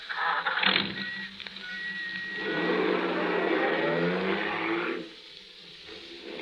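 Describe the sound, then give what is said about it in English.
A taxi cab drives off, its engine noise swelling into a broad, sustained rush for a few seconds before dropping away abruptly. “Hop in. I'll drop you wherever you like. You're very kind. Thank you. Just drive it around for a while, cabby.”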